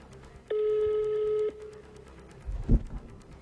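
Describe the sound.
A telephone tone as a number is redialed: one steady, buzzing tone lasting about a second, followed later by a soft, low thump against a faint background hiss.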